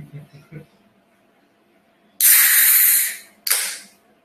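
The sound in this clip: A drink can or bottle is cracked open and fizzes. After a few faint voice sounds, a loud burst of sharp hiss runs for nearly a second, then a second, shorter hissing burst follows.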